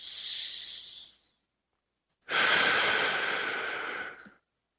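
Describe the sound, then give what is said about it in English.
A deep breath taken alone: a shorter, airy rush of breath, a pause of about a second, then a longer and louder breathy stream that fades out, with no talking. “Take a deep breath.”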